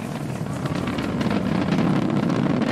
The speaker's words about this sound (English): Throttling down in preparation for the period of maximum dynamic pressure. Minute in the flight. Falcon 9 is supersonic.